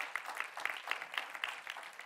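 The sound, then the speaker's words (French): Congregation clapping along during a church sermon, soft, even claps in a steady unison rhythm, roughly four beats a second, continuing without pause for the whole stretch. “Et c'est ça qui a permis, oui, on peut applaudir.”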